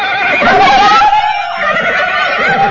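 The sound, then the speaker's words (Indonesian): A horse belonging to charging riders lets out a loud, sustained whinny, its bright harmonic tone wavering and trembling throughout, with no voices heard. “suara para penunggang kuda yang mendatangi mereka sambil menggeritkan pekik peperangan”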